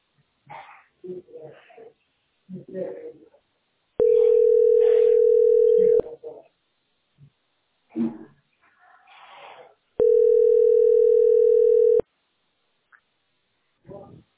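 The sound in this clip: A telephone line tone plays while a caller waits on hold with a utility company's call centre. Two steady tones, each about two seconds long, alternate with stretches of a voice speaking.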